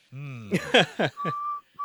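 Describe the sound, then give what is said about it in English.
A person whistles a short, steady single note that breaks off briefly and resumes, after a few short voiced sounds. “Are you just whistling?”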